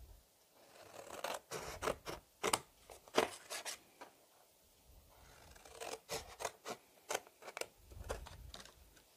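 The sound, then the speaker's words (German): Scissors cut out a paper piece for a handmade Christmas card, with many quick, crisp snips and rasps in two bursts separated by a brief pause, faint and without talk. “Und den schneide ich mir jetzt aus.”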